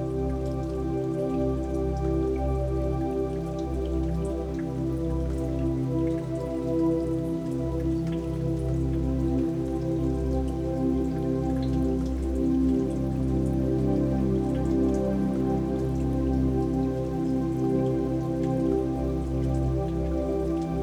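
Steady rain falling, a continuous dense wash of drops with an even level throughout and no voices.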